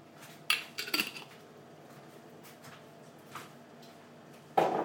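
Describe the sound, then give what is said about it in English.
Food being stirred in a cooking pot gives quiet scraping with a few sharper metallic clinks of utensil against pot. The clinks are scattered unevenly over a soft, low background, with no talk. “I'll give it a stir in a minute.”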